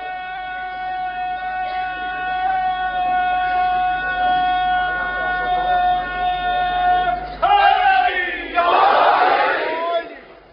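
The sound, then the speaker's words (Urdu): A long, drawn-out voice holds a sustained call at a religious gathering, followed by a crowd chanting the Nara-e-Haidari response in loud bursts of massed shouting near the end. “نعرہ حیدری نعرہ حیدری.”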